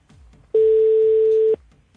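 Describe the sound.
A telephone ringing tone sounds during an outgoing call: a single loud, steady beep lasting about a second, with only faint background noise before and after it.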